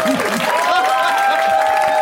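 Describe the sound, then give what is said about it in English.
Applause from an audience, a dense, continuous patter of clapping with voices heard alongside. “That was like a movie slow clap. That was a golf clap that turned into just a wave.”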